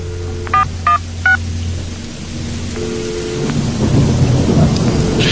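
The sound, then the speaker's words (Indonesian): A telephone keypad being dialed: three short, clear touch-tone beeps in quick succession, over a steady wash of heavy rain and rumbling thunder that grows louder toward the end. “Akhirnya ku teleponi ibu untuk bertanya.”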